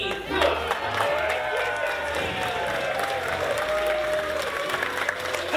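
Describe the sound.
Sustained applause from a comedy show audience, a dense, steady wash of clapping that stays loud and even throughout without any break.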